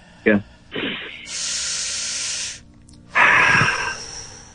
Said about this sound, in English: first we just take a deep breath together, okay?